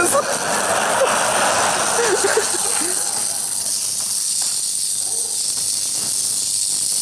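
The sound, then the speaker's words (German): A small plasma arc strikes a car key, giving a steady, bright, buzzing hiss that runs unbroken throughout, with a voice speaking underneath in the first few seconds. “Weil diese Stelle, wo dieser kleine Plasma-Arc quasi auf den Schlüssel trifft, da wird es schon ordentlich warm.”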